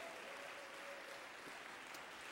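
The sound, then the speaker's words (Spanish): Congregation applause during a church sermon: a faint, continuous patter of many hands clapping, steady from start to finish. “Dale un aplauso a Cristo, amado hermano.”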